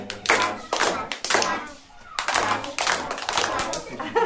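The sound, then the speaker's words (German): Children clapping their hands in a kindergarten morning circle, heard as a few short bursts of clapping followed by a longer stretch of continuous clapping. Voices are present alongside the claps. “Hört uns nicht klatschen, hört uns nicht klatschen.”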